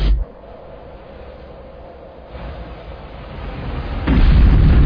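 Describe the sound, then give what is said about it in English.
Explosion blast heard as a deep, rumbling low boom. A sharp onset opens into a sustained roar that swells once midway and surges louder and heavier near the end. “Where did that blast come from?”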